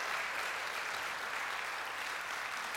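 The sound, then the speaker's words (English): A church audience applauds to welcome a newcomer with steady, even clapping that runs through the whole clip, faint and without breaks. “Get, everybody welcome Ben Pirtle. He's in the back. Give him a hand.”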